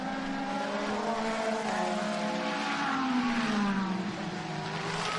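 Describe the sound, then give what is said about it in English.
Racing cars battle for position as they climb a hill, engines roaring continuously with layered, shifting harmonic whines. One engine tone drops in pitch partway through. No talk is heard. “Now, will race control need to look at that as they streak up the hill and continue on that battle?”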